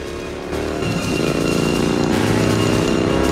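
Motorcycle engine roaring as it closes in on a truck and overtakes it in the film RoboCop. A loud, continuous engine drone grows fuller after the first half second and stays sustained.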